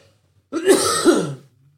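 A man clears his throat of something stuck in it: a rough, gravelly rasp in two quick pushes, loud and alone, lasting about a second with no talk.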